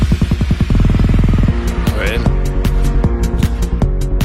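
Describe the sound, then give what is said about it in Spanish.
A techno version of Chopin's funeral march plays loud: pulsing, bass-heavy synth notes repeat rapidly, then settle into a steady beat of sharp electronic hits. “Voy a revisar un clásico. Sí. Os voy a sorprender porque voy a ir con la marcha fúnebre de Chopin.”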